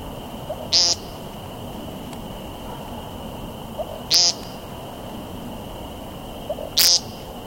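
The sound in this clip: Three nasal, buzzy ping calls from a bird on the ground, each a short sharp burst standing out loudly over a steady low background, spaced a few seconds apart.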